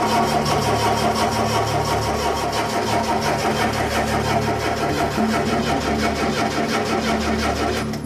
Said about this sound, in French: Ça va démarrer? Ça tourne, c'est tout.